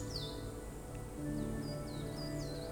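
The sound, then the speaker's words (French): Birds singing outdoors among sheltering trees under a clear blue sky: scattered faint, high chirps and short whistles over a steady, low background hum. “Et le bal des oiseaux commence à chantonner.”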